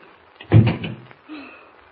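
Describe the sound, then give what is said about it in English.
A door is pushed shut with one heavy, low thud, followed a moment later by a softer, brief sound. “Close the door quickly and lock it, will you?”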